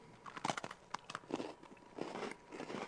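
Someone eats a creamy marshmallow treat: quiet, irregular chewing with small wet smacks and crackles.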